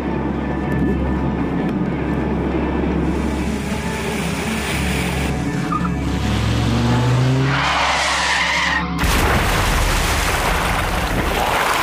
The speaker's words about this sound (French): Il est 22h quand un cabriolet quitte la route principale et termine sa course dans le canal.